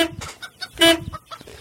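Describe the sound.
A chicken clucking: a few short, throaty clucks with one louder, drawn-out squawk near the middle. No talking.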